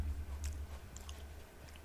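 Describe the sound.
Soft, moist chewing of an iced cupcake, with faint squishy bites and mouth sounds that stay quiet and steady throughout, with no talk.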